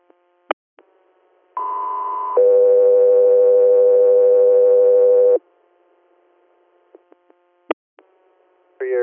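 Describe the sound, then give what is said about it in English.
Two-tone alert tones on an emergency medical dispatch radio channel: a shorter high steady tone moves into a longer, lower steady tone, both loud and pure. Brief clicks and short beeps come before and after the tones. “stand by for tones.”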